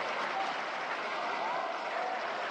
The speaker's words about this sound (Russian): Зал аплодирует стоя.